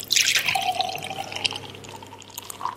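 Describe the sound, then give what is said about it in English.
Juice pours into a cup in a steady trickling splash that lasts about three seconds, with a faint ringing tone running beneath the liquid noise. “that was the sound of juice being poured into a cup.”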